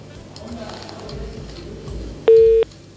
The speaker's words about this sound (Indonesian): Oh, sayang sekali terputus, bisa dicoba kembali ya Kak Esti ya.